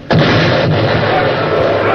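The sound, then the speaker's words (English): An enemy cannon's round shot strikes a warship's gun port with one sudden, loud blast, then a heavy roaring rumble that carries on at high level to the end. “It happened that a round shot from the enemy entered one of our gun ports.”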